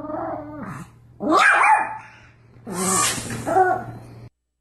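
Dog barking and growling excitedly during play, a few bursts of rough, throaty vocalizations that shift in pitch, loud and lively against a faint steady hum.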